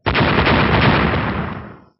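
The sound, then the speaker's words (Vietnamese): A loud, dense roar of explosions merges into one heavy, sustained rumble that lasts nearly two seconds before fading out quickly. “Từng tiếng nổ vang lên liên tiếp”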